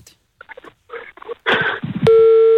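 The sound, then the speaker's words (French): A telephone ringback tone sounds on an outgoing call, starting near the end as a loud, steady, mid-pitched tone after a stretch of brief, scattered softer sounds. “Attention, ça sonne.”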